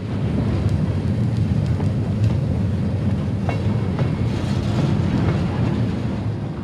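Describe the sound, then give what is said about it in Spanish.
Freight train standing and running on the tracks, heard as a steady, loud, low rumble with faint metallic clacking throughout and no talk. “Pero ¿cuánto tiempo se va a estar aquí el tren?”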